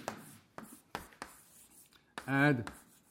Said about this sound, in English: Here's what it is, Advaita. I should write that on the board.